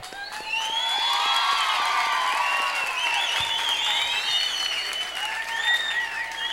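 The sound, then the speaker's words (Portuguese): Audience applause at a live rap concert: dense, continuous clapping mixed with cheers and high whistles, staying loud and steady throughout. “Agora, vocês que merecem palmas.”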